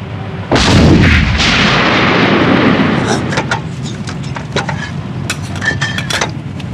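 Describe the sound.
An artillery gun fires a single heavy shot at a T-72 tank: a loud boom, then a long rumbling decay with scattered crackles and clatter.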